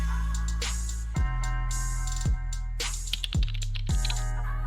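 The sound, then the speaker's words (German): Rapid clicking keystrokes on a mechanical computer keyboard, many sharp key presses in uneven bursts, layered over steady background music with a few deep thumps. “Erstmal schöne mechanische Tastatur, so muss das sein.”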